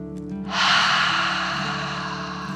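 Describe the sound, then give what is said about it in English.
A long, deep breath in through the nose and out through the mouth, one soft, steady rush of air that swells and then fades slowly over a low, constant tone. “Take a deep dragon breath in through your nose and out your mouth.”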